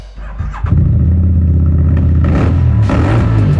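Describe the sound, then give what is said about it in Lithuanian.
A motorcycle engine revs in an advert for a street adventure motorcycle or scooter. It catches with a loud burst, then settles into a steady, throaty, low drone with a couple of sharper throttle blips toward the end. “Tai Vouch, tavo naujas kelionių draugas. Street Adventure motociklas ar motoroleris.”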